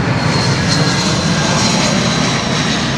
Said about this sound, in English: Here comes a plane now. Coming in right now.